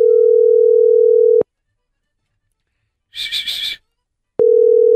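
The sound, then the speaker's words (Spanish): A steady, low telephone dial tone heard while a call is being placed. The continuous hum plays, cuts out for a few seconds of near silence, then returns just as loud. “Vamos a marcarle”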